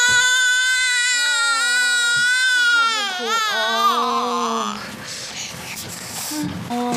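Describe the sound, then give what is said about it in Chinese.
A hungry infant wails in long, high, quavering cries for several seconds. The crying then grows quieter and rougher as adults talk over it. “怎么回事啊？怎么老哭啊？ 没吃饱呗，当然哭了。”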